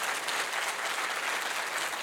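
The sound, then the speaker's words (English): A church audience applauds newlyweds: steady, dense clapping that holds at an even level for about two seconds, with no voices standing out. “Let's put our hands together and welcome them together as a couple.”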